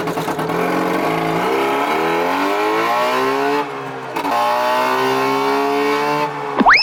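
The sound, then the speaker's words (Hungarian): A race car engine revs loudly, its tone climbing steadily, then dropping off briefly before climbing again in a second long, strained rise, ending with a sharp, squealing flourish. “A versenyautó kitűnő szórakozás, akár baráti összejöveteleken is. A műsorszám versenyautó megjelenítést tartalmazott.”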